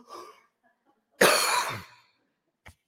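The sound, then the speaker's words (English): A person coughing after trying to imitate labored breathing: one loud, harsh burst lasting about half a second, with a faint breathy sound before it and a tiny click afterward. “just made myself cough now trying to do that.”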